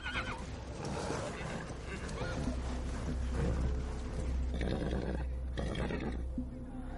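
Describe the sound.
Horses neighing as riders gallop toward a forest: loud, repeated whinnies over a dense rumble of pounding hooves, continuing throughout.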